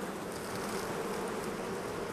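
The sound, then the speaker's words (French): Honeybees buzzing around an open beehive while a beekeeper adds a super, a steady, faint, continuous drone of many wings with no pauses. “Et là je vais aller chercher une autre hausse que je vais poser dessus quoi, pour agrandir le volume de la ruche quoi. Une ruche comme ça, ça représente combien d'abeilles?”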